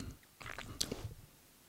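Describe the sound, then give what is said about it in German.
Tea is being sipped in one short, wet slurp lasting about a second, with a few small squishy mouth clicks. The sound is faint and heard alone. “Nochmal ein Schluck hier für dich eine Sekunde in Achtsamkeit und Stille für mich. Ein Schluck leckeren Tee.”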